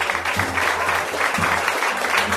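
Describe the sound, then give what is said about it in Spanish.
Townspeople applaud and cheer to acclaim Thumbelina, making a steady, dense wash of clapping and crowd noise that lasts throughout. “a la que acudió todo el pueblo, que vitoreaba y aclamaba a Pulgarcita.”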